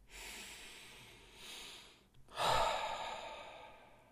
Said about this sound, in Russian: Берете свое переживание на мизинце, глубокий вдох. На вдохе воспроизводим, на выдохе отпускаем.